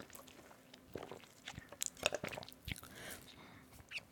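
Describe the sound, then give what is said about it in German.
Someone takes a drink in a few quiet sips, with soft gulping swallows and small wet mouth clicks between stretches of near silence. “warte, ich trinke noch ein Stück vorher, puh.”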